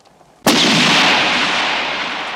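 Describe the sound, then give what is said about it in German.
A single loud gunshot in a Western radio play, during a scene of shooting at birds and people. It is a sharp crack followed by a long, gradually fading rumble, with no voices. “Keiner der Vögel ist getroffen. Maureen sinkt langsam zu Boden. McBain stürzt hin zu ihr zu seinem Gewehr, wird im Lauf von Kugeln getroffen.”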